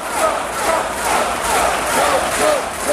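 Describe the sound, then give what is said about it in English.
An enthusiastic crowd of several thousand at a Donald Trump town hall in the Greater Philadelphia Expo Center cheers and chants loudly and continuously, with swelling waves of shouting. “Donald Trump kicked off his town hall at the Greater Philadelphia Expo Center Monday night, a little behind schedule, but still to an enthusiastic audience of several thousand people.”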